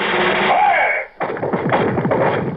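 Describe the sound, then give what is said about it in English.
A firing squad's rifle volley at an execution: one sudden, loud blast breaks in after a brief drop toward silence and rolls on as a rough, rumbling tail, following a sustained band-limited roar. “Ready! Aim! Fire!”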